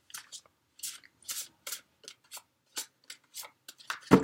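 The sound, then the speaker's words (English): Cards being shuffled and then drawn for an astrology card reading: many quick, papery riffling bursts in an uneven rhythm, with a louder slap of cards at the very end. “So let me go ahead and get the cards drawn for you”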